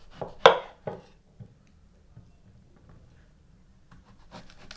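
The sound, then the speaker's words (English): Knife chopping the bruised bits off a quince: a few crisp cutting strokes, the first loudest, followed by quieter scrapes and faint taps, with a brief rustle near the end. “I'm going to chop off the bruised bits of the quince.”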